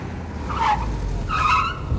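Tires squeal as a car skids to a halt on the pavement right in front of a house door, two short high-pitched screeches over a low rumbling engine.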